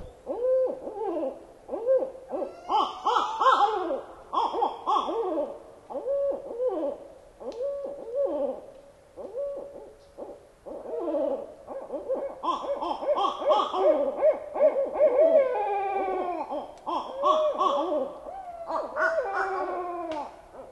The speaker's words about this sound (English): we'll listen to a deep woods bird, the barred owl. This is B-A-R-R-E-D, named after the bars on its chest, singing, who cooks for you?